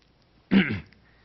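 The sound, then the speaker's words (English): A single short throat clearing, a rough, low rasp of about a third of a second. It stands out loudly against otherwise quiet surroundings, with no talk. “Pardon me, getting a little frog in my throat.”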